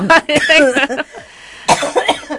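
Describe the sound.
A person coughs a few harsh, loud bursts mixed with throaty vocal sounds. There is a short quieter gap midway, then another forceful cough.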